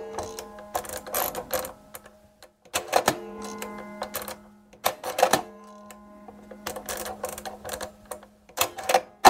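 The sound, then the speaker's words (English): Clicking, clacking ratchet bursts from an early hand-cranked encryption machine of the kind used by the United States in World War II, encoding a message. The bursts come in several loud clusters separated by brief pauses, with no talking. “That is the sound of one of the early primitive encryption machines that countries used, in fact, the United States used in World War II.”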